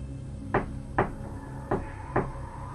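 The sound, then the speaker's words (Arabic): Knocking on a door: four dull, hollow knocks in two pairs, each pair a quick double rap, with a short pause between the pairs. “انظر كيف يطرق هذا العفريت الصغير الباب”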